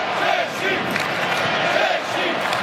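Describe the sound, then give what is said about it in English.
Mexican football fans roar in the stadium during a Mexico–Czechia match, a sustained, fairly faint wall of many voices with chant-like shouting that holds at an even level throughout. “But the noise being generated by the Mexican fans.”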